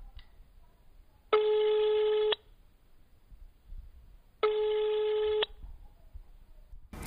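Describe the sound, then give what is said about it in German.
Ringback tone of an outgoing telephone call: two steady, buzzy rings of about one second each, separated by a pause of roughly two seconds, over quiet background. “Ja, dann lass dort einfach mal anrufen.”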